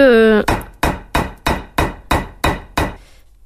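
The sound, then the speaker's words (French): Eight sharp, evenly spaced hammer blows tap stitch points into material over thread. A brief voiced sound comes just before the first strike. “je remartèle les points pour être sûr que ça rentre bien dans la matière et que ça use pas le fil, quoi. Donc là, je suis obligée d'y aller un peu plus fort”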